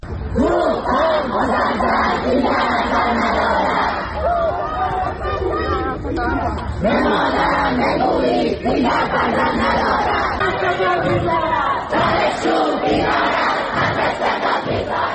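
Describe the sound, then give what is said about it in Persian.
Student protesters at a university in Tehran chanting and shouting together: a dense, loud crowd of voices with rhythmic surges that stay steady throughout. “این صدای اعتراض دانشجویان دانشگاه علامه طباطبایی در تهران است.”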